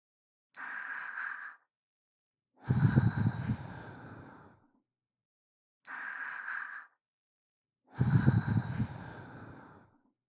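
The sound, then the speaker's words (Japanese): Gentle breaths are blown into the listener's ear as four soft puffs separated by silence: a short airy hiss, then a longer breathier whoosh with a low rumble. The pair is repeated once. “それじゃあ最後の仕上げに、君の大好きなふうしてあげるね。”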